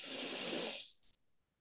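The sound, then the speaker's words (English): One big, deep belly breath: a loud, airy whoosh of breath that holds for most of a second and then quickly fades away. “One last big, deep belly breath, biggest breath of the day.”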